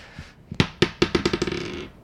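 Dice are rolled during a tabletop role-playing game, clattering onto a hard surface in many quick bounces that speed up and soften until they settle.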